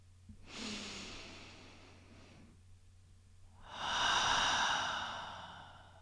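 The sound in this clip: A deep breath during a guided meditation: a soft, airy inhale, then after a short pause a louder, fuller exhale, heard alone without talk.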